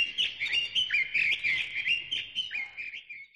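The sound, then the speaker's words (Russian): A nightingale sings a quick run of high, clear chirps and warbling trills, with rapid notes that rise and fall and no voices over them. “Соловей, певец чудесный. Как поет же он прелестно. Лишь начнет свои рулады, все мы слушать его рады.”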